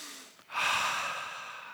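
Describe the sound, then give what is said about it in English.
One deep breath: a long, airy rush of air that swells quickly and then tapers off slowly, heard alone with no talk. “the first thing I need all of you to do is to take a deep breath. Everybody do it with me.”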